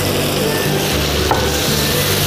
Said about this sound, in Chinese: 你炒这一锅子